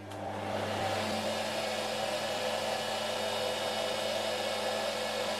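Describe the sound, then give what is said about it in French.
Yarn twisting machine running in a spinning mill, a steady loud whirring drone with a low tonal hum underneath, continuous and unchanging, with no voices. “l'assemblage des solitaires, le fil définitif, va se faire sur la machine suivante qu'on appelle la retordeuse.”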